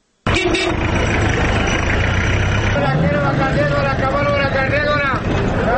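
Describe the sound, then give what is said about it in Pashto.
Drivers shout for passengers as vehicles leave Khost city for Gardez. Their raised calls run over a continuous roar of engines and traffic. “دا د خوست ښار څخه د گردیز پر لوري د وتونکو موټرو د موټروانانو غږونه دي چې د اسوارلۍ پیدا کېدو لپاره هډې ته د ورننه وتونکو خلکو په لیدلو وهي.”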